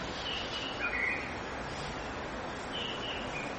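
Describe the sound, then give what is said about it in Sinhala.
Birds calling outside, a few faint chirps rising over a steady hiss of background noise. “දැන් ඔහම ඉන්න ගමන් බලන්න එළියේ කුරුල්ලෝ”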